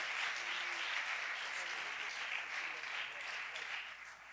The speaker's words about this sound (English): Can we give a good hand of welcome? Come, Brother Hatfield.